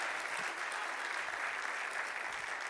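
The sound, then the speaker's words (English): An audience gives steady, enthusiastic applause to welcome first-time guests. Dense, even clapping holds at a constant level for the whole stretch, with no pause or voices on top. “So glad to have all of our first-time guests here today. Let's give all of our guests a hand.”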